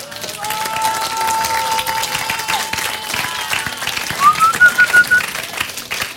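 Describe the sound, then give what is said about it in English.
Audience clapping: a dense, continuous patter of many hands sustained throughout, with a high whistle-like tone drifting over it and a few louder claps near the end. “See, that clap is not for me. That clap is for God.”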